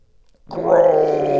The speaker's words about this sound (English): Groan.